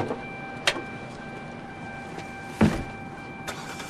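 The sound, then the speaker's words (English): Two men get into hire cars: three car-door thuds, the second the loudest, over a steady low hum. “The young man nods at Don as they both get into their hire cars.”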